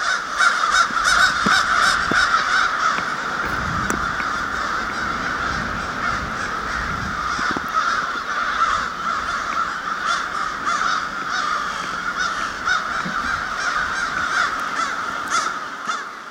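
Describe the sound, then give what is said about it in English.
Ten million crows cawing in winter in Bloomington, Indiana: a dense, loud, unbroken mass of overlapping harsh caws that continues steadily through the whole clip. “In case it's not obvious, that was the sound of 10 million crows. Winter, Bloomington, Indiana.”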